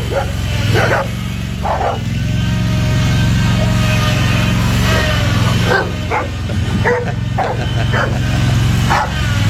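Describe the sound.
A dog barks while chasing, giving many sharp barks in irregular bursts over a continuous low rumbling drone.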